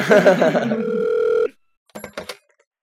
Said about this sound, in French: C'est parti pour le jingle.